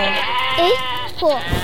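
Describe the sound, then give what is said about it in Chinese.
Sheep bleating in a video game, where a flock crowds around a campfire. Two short, wavering bleats rise over continuous talk. “你刚刚生的那个萤火，都被这群绵羊给围住了，好好笑啊，他们没看过火。”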